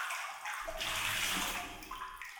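Feet lift out of a hot-water foot bath before a foot massage. Soft sloshing and trickling water rises briefly and then settles, faint throughout.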